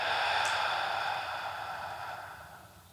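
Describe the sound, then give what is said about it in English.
A long, steady breath drawn during a seated guided relaxation exercise with eyes closed, strong at the start and slowly fading away as the air is released. “you may take a normal deep breath in and slowly breathe out.”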